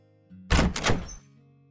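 A door opening for a visitor gives one heavy, dull thunk that lasts under a second, loud against a faint steady low hum that continues before and after.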